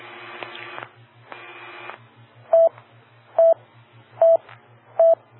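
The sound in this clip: An auto dialer sends DTMF tones over an amateur radio repeater net: two longer, buzzy tone bursts, then four short, evenly spaced beeps, with a steady low pulsing hum underneath.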